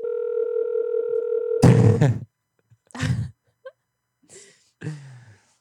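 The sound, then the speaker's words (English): A telephone dial tone hums as a call to a realtor is placed: a steady, loud tone with faint pulsing lasts about a second and a half, then cuts off, followed by several short, rough bursts of noise separated by silence. “Let's call a realtor. Everybody does.”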